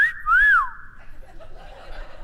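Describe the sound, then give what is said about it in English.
A single airy whistle blown through a dental retainer: one wavering tone that climbs briefly, then slides down and fades into faint breathy noise. “I learned how to whistle with a retainer, so all the air goes. So I could sit in class, and while the teacher was walking by, I'd be like,”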